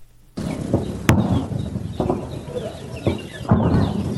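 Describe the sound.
Birds call steadily around farmland in Kandahar's Arghandab district, with clucking, fowl-like calls over constant background noise. A few sharp, loud bangs cut through at irregular moments.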